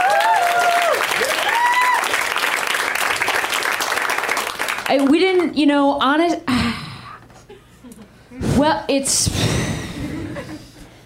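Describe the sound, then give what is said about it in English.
An audience applauds comics at a live comedy show, a dense wash of clapping and crowd noise for the first several seconds. Voices ring out over it, and then talk continues as the applause dies away. “We got some great comics in back. They are also experiencing this moment. Let's hear for those comics.”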